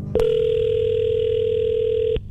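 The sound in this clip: Telephone ring tone on a call to a guest lawyer: one steady, sustained electronic tone holding for about two seconds and then cutting off abruptly, with no voices.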